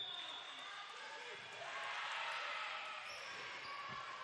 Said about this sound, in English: Vashti looking, controlling the dribble.